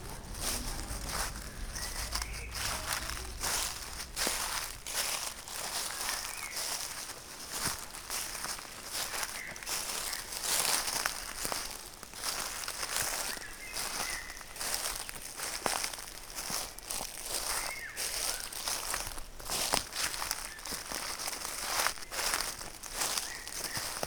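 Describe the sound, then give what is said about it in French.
Footsteps through a forest, a continuous run of dry crackling and rustling steps at a fairly even pace throughout, fairly faint, with no voices. “Sortir de l'ordinateur pour plonger dans la forêt.”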